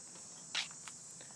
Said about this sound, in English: cicadas are going, and crickets are twittering